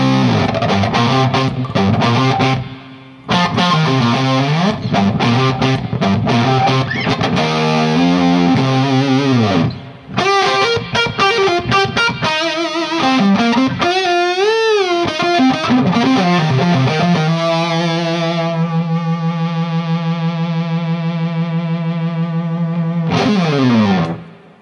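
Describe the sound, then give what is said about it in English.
Electric guitar through a germanium Fuzz Face fuzz pedal into an amp at full volume, a thick, snarling, heavily distorted tone playing bends and riffs, then settling into sustained held notes, loud throughout with one brief gap. “It's this sound. It's just the most amazing Fuzz Face.”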